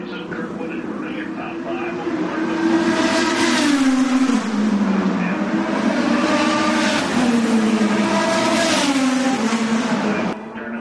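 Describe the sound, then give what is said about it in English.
IndyCar race cars speeding past on a track, a loud, high engine whine that swells and drops in pitch as a few cars pass in quick succession. “Sound like the Radicals, but they're not supposed to be on another hour. I guess that's the NTT IndyCar series. Boy, they're going real fast.”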